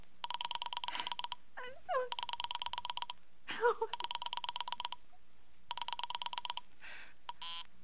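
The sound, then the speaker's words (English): A telephone rings as an operator tries a Murray Hill number, with repeated bursts of rapid, buzzy ringing pulses separated by short pauses and brief vocal sounds between them. “Operator, for heaven's sake, will you ring that Murray Hill 40098 number again? I can't think what's keeping him so long. I will try to get it for you.”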